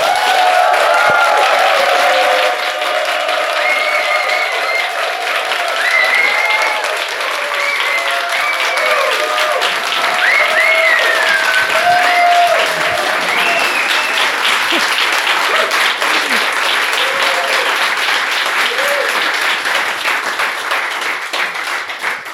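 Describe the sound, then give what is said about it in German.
A live audience claps on cue, producing applause meant to sit beneath later speech: loud, dense, sustained clapping with scattered whoops and raised voices running throughout. “wollen wir schon mal einmal einen Applaus aufzeichnen, dann kann ich den nämlich überall drunter legen und dann sind die Hörer alle total mitgerissen, was hier für eine Stimmung herrscht”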